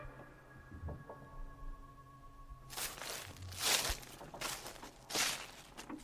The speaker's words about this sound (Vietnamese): Sau đó tiếng bước chân lại tiếp tục.